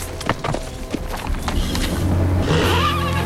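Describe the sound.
A Jeep approaching across open country, its low engine drone swelling and holding steady in the second half, preceded by scattered sharp knocks and clatter.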